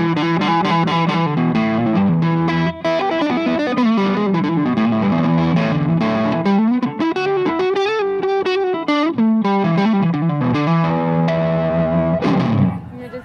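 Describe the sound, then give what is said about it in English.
Electric guitar through a tube amp with light overdrive, a fairly clean tone with slight grit; sustained notes and chords ring steadily for about thirteen seconds, with a wavering bend in the middle. “because it's fairly clean, like it's just a little bit of overdrive to the tubes”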